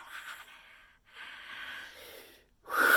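Slow, deep breath drawn in during a meditation healing session, a soft airy inhale in drawn-out stages, then a short, sharp, much louder exhale at the end.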